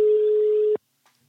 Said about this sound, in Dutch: even bellen, even bellen met een echte voetbalkenner.